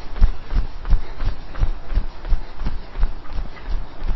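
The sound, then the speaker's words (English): Feet jogging on the spot during an exercise workout, quick light thumps repeating at a brisk, even rhythm from start to finish. “off we go, feet up and down, minimize contact on the ground, up and down, up and down, up and down, up and down, fast, fast, fast, heels up, knees up, and jog.”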